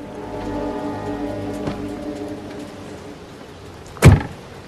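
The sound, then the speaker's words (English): A front door being opened: a single sharp, loud clunk near the end over a steady low background hum. “She cautiously opens the front door and peers in.”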